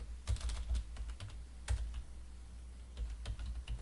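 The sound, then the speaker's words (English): Bursts of keystrokes as a command is typed at a command prompt on a computer keyboard: quick, light clicks in several clusters with short gaps between them, fairly quiet and with no talking. “I'm going to type DC promo.”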